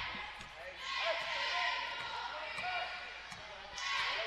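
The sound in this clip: A basketball being dribbled out near the half-court line late in a game, heard as a few faint bounces beneath a steady, loud crowd roar.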